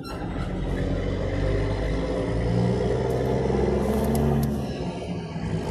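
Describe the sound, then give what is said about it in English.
Road traffic noise: a steady, broad rumble of passing vehicles that holds at an even level throughout, with no voices. “it's very hard to talk sometimes because of all of the noise from the traffic”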